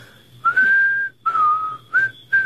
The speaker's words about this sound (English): What, whistle? Yeah. Easiest thing in the world. Just watch me. I'll show you how.